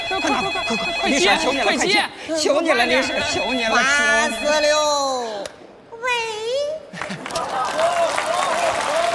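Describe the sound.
Telephone ringtone sounding in a comic sketch, a repeating electronic ring heard under lively overlapping voices and animated talk.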